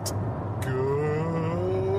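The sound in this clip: Car interior noise while driving: a steady low engine drone and road rumble with a faint humming tone, continuous and even throughout.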